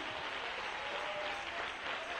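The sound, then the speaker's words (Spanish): A church audience claps in jubilant praise for the King during a sermon, a fairly soft but continuous wash of many hands that stays even throughout. “¡Oh, un aplauso de júbilo al rey!”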